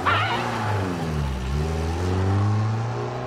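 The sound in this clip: A car drives off with its engine revving. The tone dips in pitch midway, then climbs again as it accelerates, staying moderately loud throughout.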